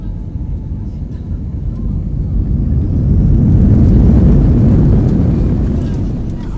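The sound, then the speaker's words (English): Low roar of an airliner landing at Lviv Airport: a dense, steady rumble that swells to a peak midway and then gradually eases off. “Ladies and gentlemen, welcome to Lviv Airport, where the local time is 10:45 a.m. Please remain seated with your seatbelts fastened until the aircraft will come to a complete stop.”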